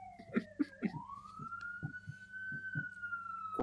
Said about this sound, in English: The ambulance is rushing to get the pig out of the well.